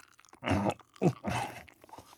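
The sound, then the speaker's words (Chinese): Crunchy chewing of turkey breast meat, heard as three short, moist crunching bursts, the middle one brief and the last slightly longer, with near-silence between them. “大鼹鼠开始吃火鸡的鸡脯肉了，他嘎吱嘎吱地咬着”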